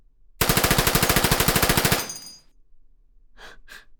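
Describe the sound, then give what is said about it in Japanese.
Rapid automatic gunfire from a video game shooter: one loud, sustained burst of many quick shots at an even rhythm ends abruptly and fades out. Two short breathy sounds follow in the quiet. “いい？撃つよ。”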